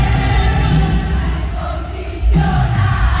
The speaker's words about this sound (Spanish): Ahí está poniendo a cantar el público. Canta, canta.